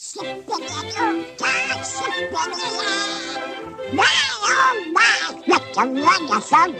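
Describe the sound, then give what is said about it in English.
A cartoon duck's raspy, quacking voice sings a song over musical backing in a 1948 animated short, with squawky, buzzing phrases rising and falling in a lively, continuous run. “having Donald Duck sing it in the short cartoon Soup's On in 1948. But Donald Duck!”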